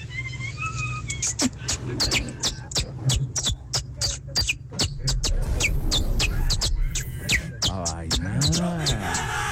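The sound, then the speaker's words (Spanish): A person imitates a canary's song with a long run of rapid, sharp, high chirps and whistled trills, ending in a wavering vocal sound. “Yo trato de imitar a un canario.”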